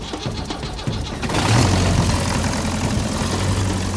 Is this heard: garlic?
no